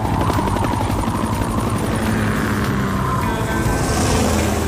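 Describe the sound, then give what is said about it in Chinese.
A helicopter flies with a loud, steady, chopping rotor throb and an engine whine running throughout. “天天，驾驶你的直升机到水塔来。 狗狗要飞上天喽。”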